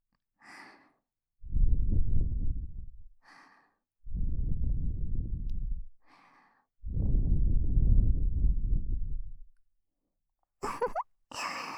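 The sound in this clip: Gentle blowing into the listener's ear comes as three long, soft, breathy puffs, each preceded by a brief light inhale, with quiet pauses between them.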